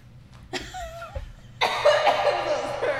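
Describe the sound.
Coughing after accidentally inhaling a drink instead of swallowing it. A short vocal sound comes first, then a burst of rough, breathy coughs that continues to the end.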